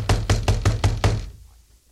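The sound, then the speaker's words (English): Vigorous knocking on a door: six firm, evenly spaced raps in quick succession, loud and alone, then silence. “knocked again. This time more vigorously.”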